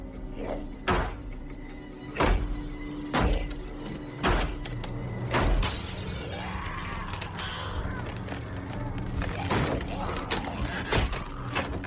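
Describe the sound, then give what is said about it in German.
A zombie pounds a door with a large stone, giving repeated heavy, dull thuds at a roughly steady pace. The blows stand out over a busy, noisy background, with fainter knocks continuing later. “Da beginnt einer der Zombies, mit einem großen Stein gegen die Tür zu schlagen.”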